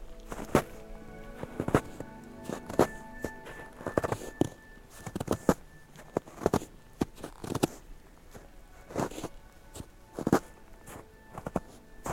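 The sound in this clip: Footsteps crunching across day-old snow that is beginning to settle and pack down: a long, uneven series of crisp steps with a loose, irregular rhythm, heard alone without voices.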